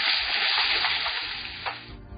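Purple amaranth, a Chinese leafy vegetable, sizzles while being stir-fried in a pan. There is a steady, loud hiss with a few small crackling bumps toward the end and no talking.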